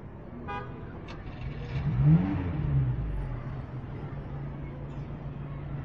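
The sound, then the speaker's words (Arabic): A school bus engine revs as it starts off, the motor swelling to a loud peak early on and then settling into a steady, low rumbling hum. “قوموا خلونا نطلع على الباص، بس شوي شوي حتى ما تعوروا بعضكم.”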